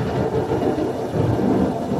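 Low, continuous rumbling of thunder during a storm, a dense steady roll without distinct cracks, holding an even loudness throughout with no voices.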